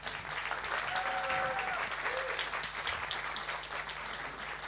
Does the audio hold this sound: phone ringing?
no